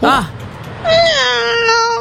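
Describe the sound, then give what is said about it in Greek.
A person imitates a cat's meow with a short voiced mew followed by a longer, drawn-out, whining meow whose pitch slowly falls. “Εγώ νομίζω κάνω πάρα πολύ καλά τη γάτα. Για πήγαινε να την κάνει.”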